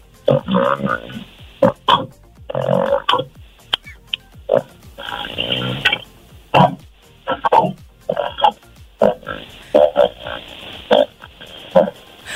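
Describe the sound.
A person's voice imitates snoring during normal sleep for a snoring contest, producing many loud, raspy, croaking snorts in an uneven rhythm, separated by short pauses, with no talk.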